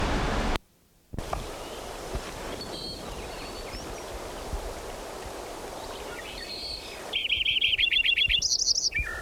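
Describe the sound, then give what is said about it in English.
A Lincoln's sparrow sings a rapid, high, bubbling series of trilled notes near the end. The song sits over a steady, hissing stream-like wash of background noise that briefly drops out near the start. “Lincoln Sparrow number 10 continued.”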